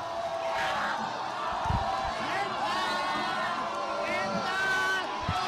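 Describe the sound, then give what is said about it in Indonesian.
Persib football fans (bobotoh) cheering Bandung's win over rival Persija Jakarta: a continuous crowd roar of cheers and shouts with individual voices rising out of it. “Lautan kegembiraan dirasakan para bobotoh yang bersorak dan saling berpelukan merayakan kemenangan Bandung atas sang rival Persija Jakarta.”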